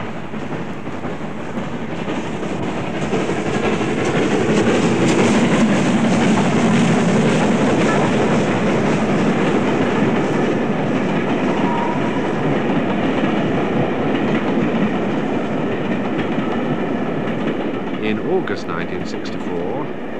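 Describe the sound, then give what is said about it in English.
Flying Scotsman steam locomotive hauling a train as it accelerates away from a junction, a loud, continuous roar of engine and rolling stock that swells slightly early on and holds steady. “the sound you hear now is of Flying Scotsman accelerating away from Northolt Junction.”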